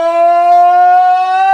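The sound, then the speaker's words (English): A steady siren-like tone used as a sound effect, held at an even pitch with a bright stack of overtones, loud and alone throughout. “I kind of had the siren effect going and then the soft fade out at the end. That was kind of a new one.”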